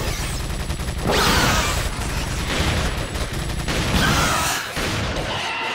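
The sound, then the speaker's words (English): A dense wave of gunfire and shotgun blasts forms a continuous rattling barrage with heavier surges, then drops off toward a quieter tail near the end. “a wave of bullets and shotgun blasts take the hunter down”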